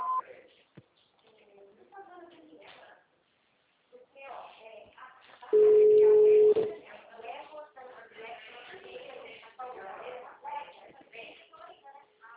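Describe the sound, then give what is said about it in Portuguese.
A telephone system signal tone sounds as one steady, loud beep lasting about a second, with a voice speaking before and after it. “Após o sinal, visite o ramal ou aguarde.”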